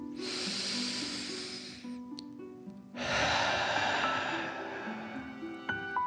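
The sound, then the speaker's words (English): Deep, slow dragon-like breathing during a children's bedtime relaxation exercise: two long hissing breaths, in and then out, separated by a short pause, over soft sustained background tones. “Relax into the soft green grass and breathe like a dragon, in and out.”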